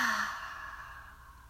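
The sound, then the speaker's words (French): A forceful exhale releases tension after clenching the fists, feet and face in a relaxation exercise: one long breathy sigh, briefly voiced at the start, then fading into soft airy breath. “Inspire, serrez les poings, serrez les pieds, serrez les orteils, serrez le visage. Expire, souffle et relâche tout.”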